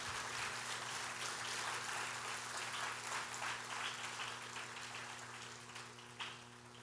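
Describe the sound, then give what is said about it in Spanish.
Applause from an audience at a church service, a dense, steady wash of clapping that runs throughout and eases slightly toward the end. “Dale un aplauso al Señor. Put your hands together for the Lord.”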